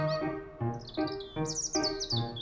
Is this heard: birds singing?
yes